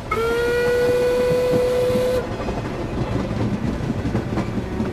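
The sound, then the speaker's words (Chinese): Train rolling on rails toward Hangzhou, its wheels knocking with a dull, heavy rumble; a long, steady whistle sounds over the rolling for about two seconds at the start, then the low clatter continues alone. “列车压压，直奔杭州而来，发出沉闷又凝重的铁轨叩击声”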